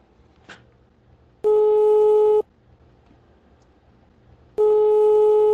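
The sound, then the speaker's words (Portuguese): A telephone call tone sounds as two long, steady, pure beeps, each about a second long, separated by a few seconds of faint background hiss. “Deixa eu ligar pro Coutinho, porque ele sempre esquece também.”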